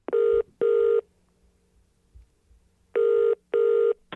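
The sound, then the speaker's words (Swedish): A telephone ringback tone sounds on an outgoing call. It gives two double rings, each a pair of short, buzzy tones. A quiet pause separates the two pairs. “vi ska ringa och kolla status.”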